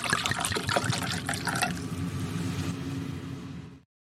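Red wine from a freshly opened bottle is poured, a faint, steady trickling gurgle that runs for a few seconds before stopping abruptly.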